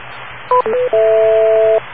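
Touch-tone telephone keypad dialing from a tone pad generator: a few short, clean dual tones in quick sequence, then one long held tone, over steady hiss.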